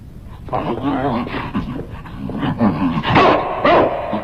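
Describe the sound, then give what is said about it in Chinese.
A human voice imitates a dog, giving many short yapping barks and whimpering yelps in an uneven series that grows louder toward the end. “一个是只会汪汪叫的刺客”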